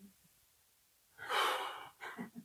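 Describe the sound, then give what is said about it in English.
An audience taking a deep breath together, first a broad, airy rush of breath and then a few shorter breathy puffs, all fairly faint. “Come on, everybody take a deep breath.”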